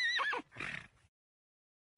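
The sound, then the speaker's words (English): A loose pony whinnies in a high-pitched call, with wavering, falling harmonics in two quick bursts, then silence. “That is a high-pitched pony.”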